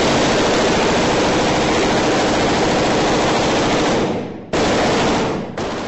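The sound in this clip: Machine gun fire from soldiers spraying rounds from vantage points over houses in a combat zone: a long, loud, sustained burst, a brief break, then another burst that cuts off quickly, with no talk.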